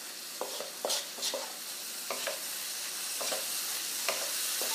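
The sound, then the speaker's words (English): Red pepper sizzling as it is added to a pan of frying rice, a steady hiss with scattered scraping and clicking from stirring. The sizzle is moderately quiet and continuous, with no talk. “All right, here goes the pepper from Dr. Pepper's.”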